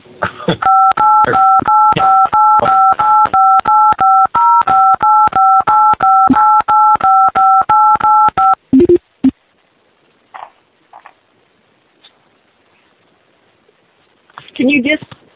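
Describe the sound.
Telephone keypad tones from callers punching buttons on a conference line: a long, loud string of many rapid, evenly paced two-note beeps, then a few faint scattered noises and a brief burst of voice at the end.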